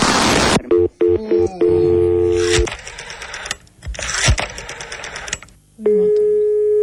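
Telephone dialing tones as a number is punched in: a quick run of short beeps, then longer sustained electronic tones with brief gaps between them.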